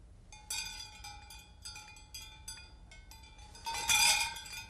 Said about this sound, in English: these are the tops of frozen juice cans. And actually, what I'd like you to do is just blow them really gently.